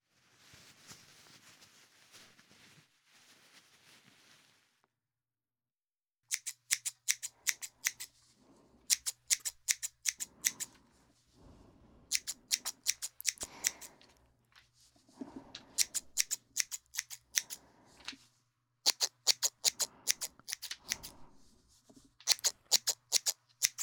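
Scissors cutting a younger student's hair, heard as rapid clusters of crisp metallic snips separated by brief pauses, quiet and alone, with a faint steady low hum beneath after a soft rustling opening.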